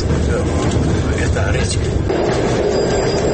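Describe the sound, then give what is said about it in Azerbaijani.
Steady, loud rumble of the Moscow–Baku passenger train approaching Baku station at three in the night, a continuous dense roar of wheels and carriages with no clear breaks. “Gecə saat 3. Moskva-Bakı qatarı Bakı vağzalına yaxınlaşır.”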